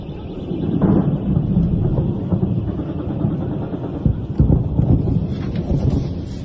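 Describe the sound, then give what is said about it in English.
Deep rumbling booms of old Soviet ammunition, some produced before 1939, cooking off in a massive blast: a continuous low roar, thunder-like, with a few sharper bursts standing out midway. “Some of the ammunition left by the Soviet Union had been produced before the signing of the Molotov-Ribbentrop Pact in 1939. A local video captured the sound of the ammunition cooking off.”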